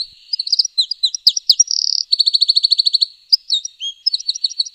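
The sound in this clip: A wren sings a loud, high-pitched trilling song alone, mixing quick chirps, a buzzy trill and a long run of rapid, evenly repeated notes, then closing with more short chirping phrases.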